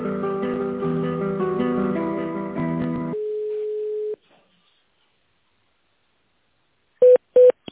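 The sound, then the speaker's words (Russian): Telephone tones during an office call transfer: melodic hold music plays, then a steady mid-pitched tone for about a second, then silence, and finally two short, loud beeps close together. “давайте сейчас переключу на начальника тендерного отдела Антонину”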